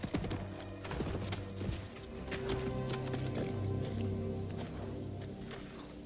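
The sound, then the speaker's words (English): A horse galloping around a corral, its hoofbeats thudding in a quick run of strikes at the start, with soft music sustained underneath the whole time. “looks around again to see Pilgrim beginning to gallop around the corral on his accustomed path, lashing out once with his hind legs, then settling to a steady gallop.”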